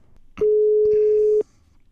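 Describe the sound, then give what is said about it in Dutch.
A single steady, mid-pitched telephone ringing tone on an outgoing call sounds for about one second, loud and alone, then drops to quiet. “Ik ga bellen met Jaap.”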